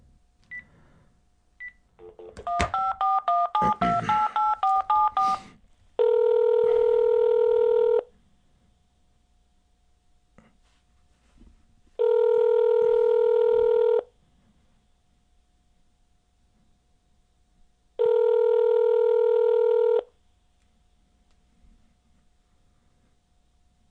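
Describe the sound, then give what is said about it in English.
A landline telephone dials a number with a quick run of keypad tones. Three long, steady ringing tones follow, each about two seconds, with even quiet gaps between them. “Got a fancy landline here. His number is going to be in the caller ID.”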